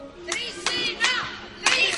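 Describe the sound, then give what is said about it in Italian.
Volleyball fans of Trissino chant for their team with hand clapping, a few loud shouted bursts of many voices separated by short gaps over a low background of crowd noise. “Ed ora i tifosi del Trissino che incitano la squadra”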